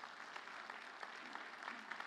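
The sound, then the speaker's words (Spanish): A church audience applauds during a Spanish-language sermon. The clapping is faint, steady and dense throughout, with no speech over it. “Un aplauso a Dios, que Él se lo merece.”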